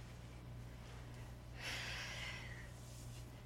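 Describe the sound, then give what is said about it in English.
A big exhale, one long breathy rush of air lasting about a second in the middle, faint over a steady low hum. “Big exhale.”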